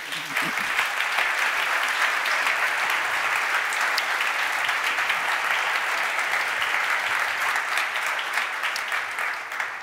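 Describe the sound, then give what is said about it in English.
Audience applause welcomes guests at a New York Encounter panel event on politics: dense, steady clapping from many hands, sustained evenly for about ten seconds. “Please join me in giving our guests a warm welcome.”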